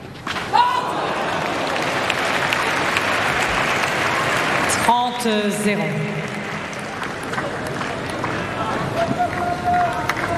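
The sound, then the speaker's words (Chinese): Cheering and clapping from a tennis player's team urging him on during a match, a continuous bright wash of applause and shouts running under a commentator's voice. “科波利的团队还是不断的在给他加油打气。”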